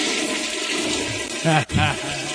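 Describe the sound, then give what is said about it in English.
A toilet flush, with steady rushing water running throughout and a voice talking over the final part. “That was a weird flush.”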